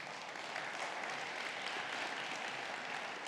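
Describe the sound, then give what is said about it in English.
An audience applauds the mothers at a Mother's Day church service. The clapping is a steady, dense wash at moderate loudness and runs without a break. “Let's give it up for our mamas one more time.”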